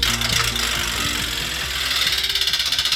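A prize wheel spins on a television set, giving a loud, rapid run of rhythmic ticks as its pegs pass the pointer. The steady clatter goes on for the whole stretch, with sharper ticks near the end.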